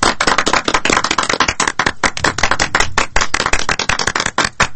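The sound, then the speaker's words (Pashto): Hand clapping from a group of people, many loud, sharp claps in a fast, dense, irregular stream that runs without pause. “دا څه کوئ؟ لاسونه لږ ورو پړکوئ چې شاوخوا خلک یې وانه وري.”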